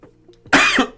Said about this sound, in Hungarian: bocsánat a köhögésért